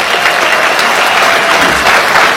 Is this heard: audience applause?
yes